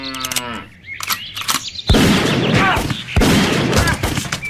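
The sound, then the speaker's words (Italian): Gunshots from a cowboy standing by a pickup truck: a couple of loud, sharp bangs that cut through shouting voices, with smaller knocks between them. “E poi mi ha sparato nei testicoli.”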